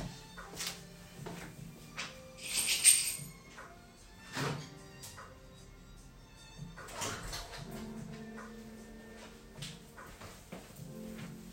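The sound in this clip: Dogs whimpering at home, faint and intermittent, mixed with scattered soft thuds and knocks.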